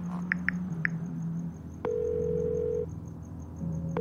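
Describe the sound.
Telephone dialing on a landline handset: three short keypad beeps, then a steady held tone for about a second, with a faint continuous hum throughout.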